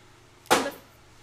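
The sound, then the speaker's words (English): A dart strikes a dartboard with a single sharp thud, a brief percussive impact that fades quickly against a quiet background. “I apologize for that noise. My brother is playing darts.”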